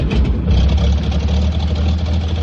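Engine of a brand-new vehicle with automatic controls and throttle levers running at idle, a loud, steady, low rumble with an even churn that holds throughout, with no voices.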